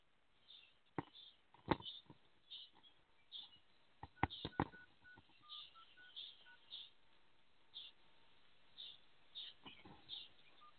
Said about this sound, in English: I am going to dial in this way.